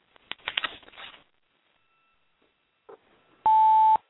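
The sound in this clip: A single loud, steady electronic voicemail beep sounds after a greeting, holding one pitch for about half a second, preceded by a stretch of quieter, broken patter and a short soft burst.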